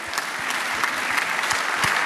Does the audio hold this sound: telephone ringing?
no